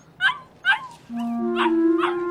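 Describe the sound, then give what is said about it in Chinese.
Short, sharp yips and barks from a dog brought home, four bursts in all, with a steady whining tone running beneath the last two. “怎么有狗叫啊？”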